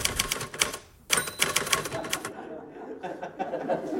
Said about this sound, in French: Il tapait sur sa vieille Remington. C'était... On entendait le clic-clac de la machine à écrire de Georges.